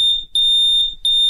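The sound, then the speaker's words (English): A smoke alarm beeps with a loud, shrill, high-pitched electronic tone in long pulses broken by two short gaps. No voices are heard. “Uh-oh. Sounds like I burnt my toast. Only kidding. That noise was a smoke alarm.”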